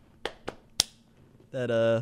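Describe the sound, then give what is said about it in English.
Hands slap three times in quick succession, each hit sharp and brief. A voice starts making a sustained sound right after them. “You were just slapping all over the place.”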